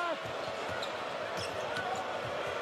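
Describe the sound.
A basketball dribbled on the court during a college game involving Wisconsin: a steady series of low, dull bounces half buried under dense crowd noise, with a voice talking over it.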